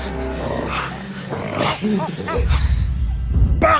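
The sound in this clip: Wild chimpanzees call in a Ugandan forest, a run of arching hoots rising and falling in pitch over a steady low rumble.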